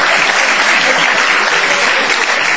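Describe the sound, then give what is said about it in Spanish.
Theater audience applause, a thick and continuous wash of many hands clapping that holds loud and steady from start to finish. “Ya la gente le aplaude para venir.”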